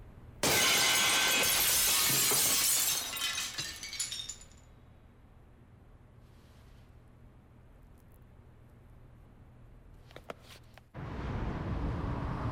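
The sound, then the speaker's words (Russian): A drinking glass is thrown against a framed photo on a wall and shatters in a loud burst of breaking glass, followed by bright tinkling shards that trail off into quiet. “Пьет и бросает стакан об фото на стене.”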